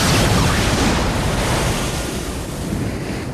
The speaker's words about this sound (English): He swings it at the glass and shatters it, sending gallons of water gushing out in a huge torrent.